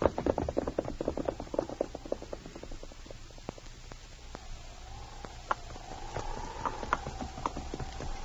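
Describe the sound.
A horse's hooves clip-clop on a trail in a steady, regular gait of many sharp knocks, loudest at first and then quieter and even, with no talk.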